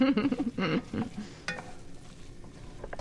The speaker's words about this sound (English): So we're going to put these little turnips in.